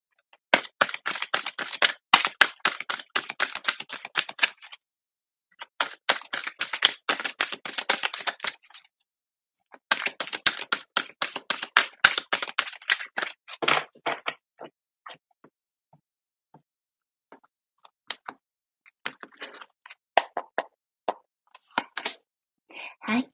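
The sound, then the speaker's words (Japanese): Oracle advice cards being shuffled and drawn from a deck: many rapid, crisp flicks and slaps in three dense bursts, then sparser taps and rustles toward the end. “ちょっとアドバイスカード引いていきますね。”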